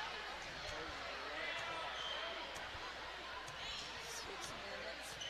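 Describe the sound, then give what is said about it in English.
A basketball being dribbled on a court during a game: repeated bounces under a continuous murmur of crowd noise and voices. “Now dribbling a little bit closer.”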